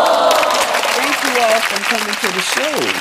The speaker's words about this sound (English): Let's give them a New Orleans welcome, everybody.